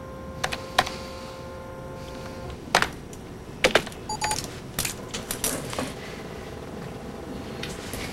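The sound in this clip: Typing on a computer keyboard: many faint, irregular clicks and taps, some bunched into quick clusters and others spaced apart, against a low background hiss.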